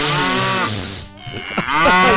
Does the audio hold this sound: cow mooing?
yes